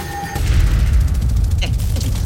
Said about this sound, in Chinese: 这么大的爆炸都能逃出来